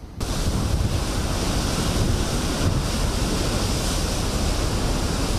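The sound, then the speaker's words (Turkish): Giant sea waves churn in a 70 km/h wind during a rainy storm in Istanbul: a loud, unbroken roar of surf and wind rumbling across the whole clip, with no distinct breaks and no voices. “Saatte 70 kilometre hızla esen rüzgarla birlikte denizde dev dalgalar oluştu.”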